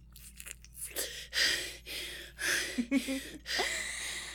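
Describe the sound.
Gasping breaths, taken after being allowed to breathe, come as several loud, ragged, airy pulls in quick succession over a steady low hum.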